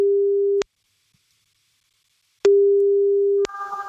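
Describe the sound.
A telephone ringing tone sounds while a call is placed: two steady, low, even tones separated by a long silence, with a voice starting just as the second tone ends.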